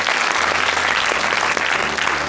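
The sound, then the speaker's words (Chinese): Studio audience applause welcoming a guest to a book talk show, a dense, steady roar of many hands clapping at an even level from start to finish. “今天来到我们读书吧的嘉宾呢，是我的好朋友崔代远先生，咱们掌声欢迎。”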